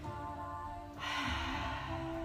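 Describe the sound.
A deep inhale and exhale through the mouth during a guided relaxation: a soft, airy rush of breath swells about midway and carries to the end, over faint steady tones.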